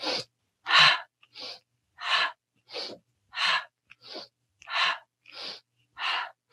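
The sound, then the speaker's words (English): Forceful breaths in and out through the mouth and nose during a twisting exercise. Many sharp, airy inhales and exhales alternate in a steady, brisk rhythm, loud and clear, with no talking. “Inhale through the mouth, inhale through the nose, exhale through the mouth.”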